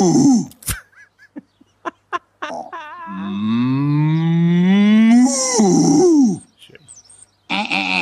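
A cow gives one long, drawn-out, low moo that climbs slightly in pitch before breaking off, preceded by scattered clicks and knocks and followed by a short burst of hiss.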